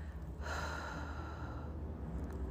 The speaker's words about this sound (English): And now when we're exhaling with confidence and peace.